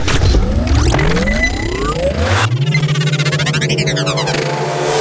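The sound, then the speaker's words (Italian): A spaceship's engine starts up, its pitch climbing quickly and then settling into a loud, steady, throbbing drone with whirring sweeps layered on top. “prima devi andare a accendere il motore”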